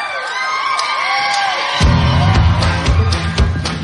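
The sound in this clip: Crowd cheering and whooping at a Jingle Ball tour concert as a pop country singer is welcomed on stage; the noise swells abruptly partway through into a loud, dense roar.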